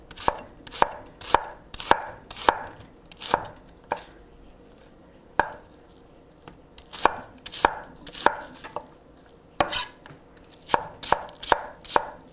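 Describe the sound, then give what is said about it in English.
A very sharp kitchen knife slices through an onion, the second one being cut, making many crisp, quick chopping strikes in uneven bursts with short pauses between them. No one speaks. “All right, slicing up the second onion.”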